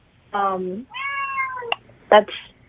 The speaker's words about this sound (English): Was that a cat or a little brother and sister, or a brother or sister I just heard? I could not. Cat. Oh, is that the cat? Yes, there was a cat.